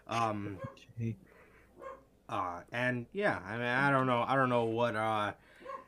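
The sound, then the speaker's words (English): A dog barks a few short, sharp times, mixed in with a person talking throughout. “Sorry for my dog.”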